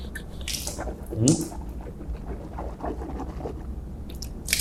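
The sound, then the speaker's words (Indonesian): Mouth rinsing with water during ablution: faint wet swishing and squelching from the mouth, with a few drips and a brief louder gurgle in the middle and soft hissy bursts at the start and end. “Lalu saya akan tutup terlebih dahulu, tutup. Nah, sehingga air tidak terus mengalir ya. Jadi langsung kita kumur-kumur.”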